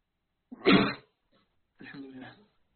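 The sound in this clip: One sneeze: a brief catch of breath, then a short, sharp explosive burst. After a pause, a voice speaks briefly.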